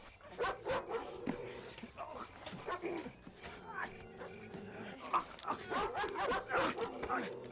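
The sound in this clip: Dog barking in a few quick, faint yips and barks mixed with people talking, the voices and barks overlapping throughout.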